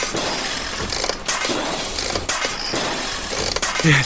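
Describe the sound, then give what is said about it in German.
A steam-powered grip crushes a mechanical robot with loud, continuous grinding and crunching, metallic clinks and brittle breaking noises over a rumbling, engine-like drone. “Er zerquetscht Spooks Maschinenmensch. Es geht doch nichts über Dampfkraft.”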